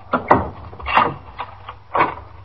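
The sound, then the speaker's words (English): A door chain slides off and a door is opened, heard as a few sharp wooden knocks and rattling clicks spread across a couple of seconds, with no talking. “I'll take the chain off the door.”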